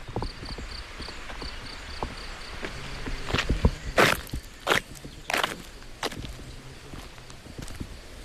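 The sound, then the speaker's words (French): Footsteps climb a cliff above a bridge at the Vézelay site, over the river Cure: irregular crunching steps that grow louder in the middle, under a steady, high chirping of insects throughout. “Nous grimpons sur la falaise qui surplombe le pont.”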